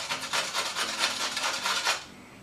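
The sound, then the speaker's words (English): Rasping scrapes of a medium-sized carrot being grated by hand for a recipe: a steady run of many quick, bright strokes in an even rhythm that fade out at the end. “Next, I grate a carrot, one medium-sized carrot, so that I have a half a cup of carrots.”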